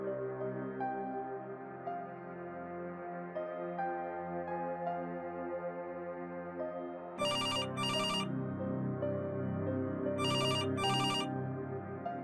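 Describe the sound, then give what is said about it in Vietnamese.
A telephone rings repeatedly with bright electronic trills in two double bursts over steady background music. “Ông Ninh tỉnh giấc bởi tiếng chuông điện thoại reo liên hồi.”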